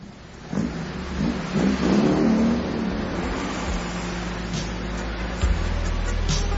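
A car engine revs as the vehicle pulls away: a low, rumbling drone swells in after a brief quiet start, rises to a louder surge, then settles into a steady mid-level hum with a brief bump near the end.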